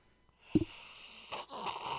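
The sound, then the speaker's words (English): Someone slurps Penelope Toasted Straight Bourbon Whiskey: a brief low thump, then a longer airy, hissing sucking draw, fairly quiet throughout. “You just slurped high quality bourbon.”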